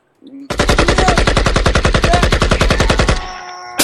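A machine gun fires one long, rapid burst of evenly spaced, loud shots lasting nearly three seconds, then cuts off into a brief fading ring.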